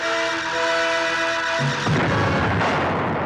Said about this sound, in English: The satellite and the light ball explode on contact.